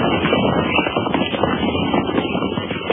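Horses carrying Spanish dragoons ride up to a small frontier fort in 1807, their hooves clip-clopping in a steady, continuous patter. A whoosh of wind runs under the hoofbeats throughout.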